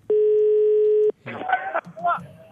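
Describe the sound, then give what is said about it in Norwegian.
A steady telephone line tone sounds as one long, buzzy beep lasting about a second while the caller waits for an answer. A person then starts talking. “Da er vi på linje. Så venter vi på svar.”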